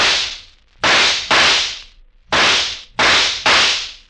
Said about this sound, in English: Six shots from a Colt 44.